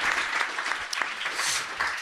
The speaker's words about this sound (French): On peut applaudir Daz.